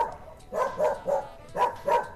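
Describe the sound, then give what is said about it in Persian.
A dog in a home garden barks insistently: five short, mid-pitched barks in two bursts, three then two, fairly loud with no voices. “سگ غوغاو می کرد و با سرش به دروازه اشاره می کرد.”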